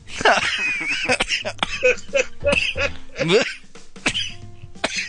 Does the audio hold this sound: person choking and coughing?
yes